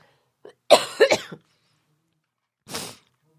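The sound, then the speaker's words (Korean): A man coughs hard after choking: a small catch, then a quick cluster of several harsh, rasping coughs, and after a short pause one more cough. “아우 이 사례가 걸려가지고요.”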